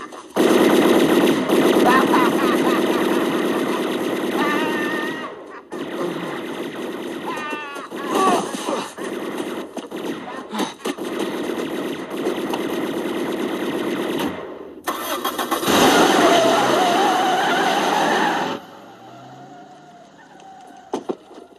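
Loud, rapid bursts of automatic gunfire rattle on almost continuously, broken by a couple of brief pauses, then cut off into a quieter fading tail.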